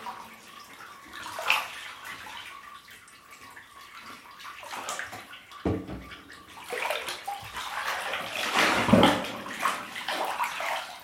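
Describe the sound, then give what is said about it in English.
Running water fills a bathtub as bubble bath is poured in, a steady rushing wash with sloshing and gurgling that swells louder toward the end. “Sorry about this noise, it's just a little more bubble bath.”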